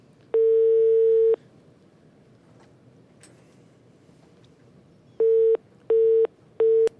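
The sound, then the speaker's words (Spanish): Telephone call tones as a number is dialed and rings out: one long steady ringing tone of about a second, a pause, then three shorter tones in quick succession, all at one fixed mid pitch. “Llamada directa, sin intermediación, a ver si nos cae la llamada. No hemos probado contactar este número telefónico.”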